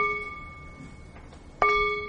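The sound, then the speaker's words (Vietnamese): A Buddhist temple bell is struck once with a sharp metallic hit, then rings on in a steady, sustained tone. A fainter ring from an earlier stroke is already fading at the start. “Đó là cái lý do tại sao mà trước khi chúng ta thỉnh chuông, chúng ta phải thức chuông hai cái.”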